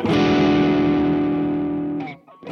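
Electric guitar played through an amp-simulator preset called SRV: one loud, distorted chord rings out and slowly fades, then cuts off with a short scrape of string noise.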